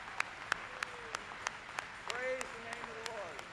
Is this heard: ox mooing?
no